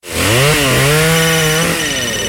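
Loud, steady buzz of a chainsaw cutting, its engine note dipping and recovering as the load changes, with no voices.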